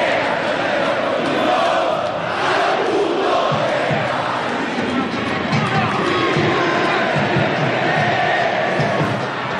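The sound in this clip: Olimpia football fans chant and roar in the stadium as their team beats Cerro; a loud, continuous mass of voices and shouts for around ten seconds, with surges in volume.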